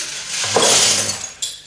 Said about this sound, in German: Da, auch ein Eimer mit den Scherben. Na los, du schüttel doch aus.